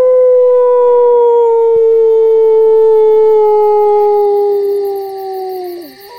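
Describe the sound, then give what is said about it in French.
A human voice imitates a wolf howling with one long, loud, sustained tonal note that slides slowly downward in pitch and breaks off abruptly at the end. “Ça ressemble à quoi, un loup qui hurle? Eh bien, ça ressemble à ça, là.”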